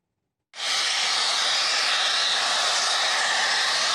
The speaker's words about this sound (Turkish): Borudan basınçlı şekilde çıkan gaz metrelerce yükselirken yoğun ses nedeniyle ekipler kulaklarını kapatmak zorunda kaldı.